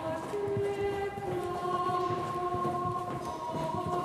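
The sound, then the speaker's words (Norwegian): The 12th-century hymn Salve Regina plays as background music, with long, sustained tones that hold steady and shift slowly, forming a continuous, even, moderately soft wash with no breaks. “Musikken i bakgrunnen her er 1100-tallshymnen 'Salve Regina'.”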